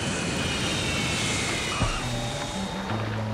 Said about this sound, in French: Mesdames, messieurs, nous allons atterrir dans quelques minutes.